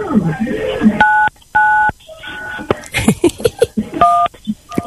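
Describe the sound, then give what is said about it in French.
Telephone keypad tones as a number is dialed, a few steady two-pitch beeps separated by short gaps, with voices and other noises in between. “Il est en communication avec nous, mais il compose numéro.”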